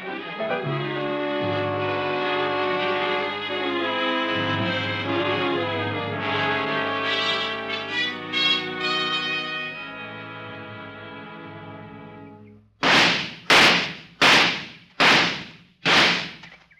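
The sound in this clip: Five gunshots in quick succession follow a stretch of dramatic orchestral music that stops abruptly. Each shot is a sharp, loud crack with a short decay.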